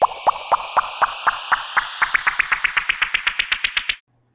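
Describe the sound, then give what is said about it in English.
Popcorn-like popping in a musical transition: many short, bright plucky pops, evenly spaced at first and then quickening steadily until they stop abruptly. “I was like vibing to like the transition music. Little pop popcorn noises, real cute.”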